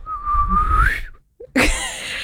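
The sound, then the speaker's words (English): A person whistles one sustained, clear note that rises in pitch at the end, then after a short pause comes a brief, noisy burst. “I can whistle. Yeah, but everyone can whistle.”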